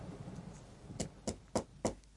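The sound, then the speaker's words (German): Four knocks land on the door of a beaver's lodge, evenly spaced and moderately sharp. They rise out of a faint background hiss after a quiet opening. “»Wer klopft da draußen?« fragte der Biber.”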